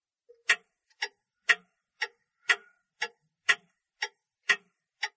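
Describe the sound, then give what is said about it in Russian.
A clock ticking in a hushed room, ten sharp, dry ticks evenly spaced about twice a second, each crisp and clearly separated by silence, with no voices. “Где-то тикали часы, все громче и громче, пока их голос не стал напоминать грохот молота.”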